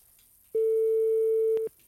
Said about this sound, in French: Attends, on va appeler sur les grandes villes parce que... Appelle Paris.